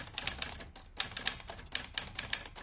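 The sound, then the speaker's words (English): Typewriter keys clacking as someone types up new replacement panels listing plays, many quick, uneven keystrokes in bursts with short gaps, fairly quiet and with no talk. “Look, we could type up new ones and glue them in.”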